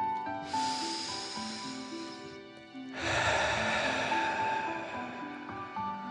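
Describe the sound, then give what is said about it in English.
A slow deep breath in followed by a long breath out during a guided dragon-breath relaxation exercise, two soft sustained breathy hisses separated by a short pause, over quiet, steady, music-like tones. “Feel the warmth and take a deep dragon breath in and out.”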